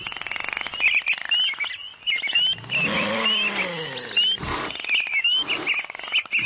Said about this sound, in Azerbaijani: Bura 170 növdə 1200-dən çox heyvan, quş və balıqların saxlandığı Bakı Heyvanat Parkıdır.